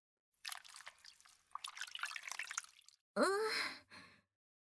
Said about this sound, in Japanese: このお湯を張ったおけでタオルを絞るわ。